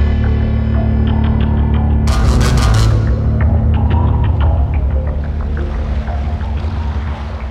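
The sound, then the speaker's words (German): A motorboat pulls away from an island toward the open sea, its engine throbbing in a loud, steady drone that slowly grows fainter toward the end. “Ja, das Boot ist frei. Ja, aber es fährt weg.”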